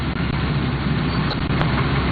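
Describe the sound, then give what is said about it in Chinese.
The engine of a rice windrower harvesting machine runs in a paddy field, giving a constant, dense rumble with a broad roar that barely varies in level throughout. No voices are heard. “太阳升高，王宏伟跳上割晒机，随着机车驶过，水稻被整齐铺放在20厘米高的秸秆茬上。”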